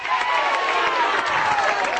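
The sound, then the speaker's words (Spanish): Audience applause at a congress of a political organization: dense, steady clapping mixed with crowd noise. It holds at an even loudness for the whole two seconds, with no lulls. “Vamos a dar un aplauso al secretario general, ¿vale?”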